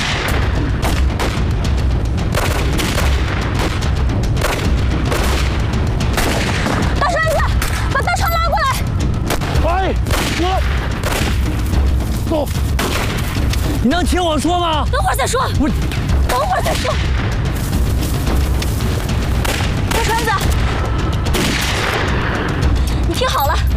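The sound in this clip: Gunfire in a battle: dense, loud, continuous cracks and booms fill the whole stretch, with shouting voices heard through the shooting.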